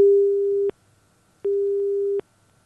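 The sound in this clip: Telephone line tone after a dropped connection: two long, steady mid-pitched beeps of equal length, separated by a gap of silence, with no voices.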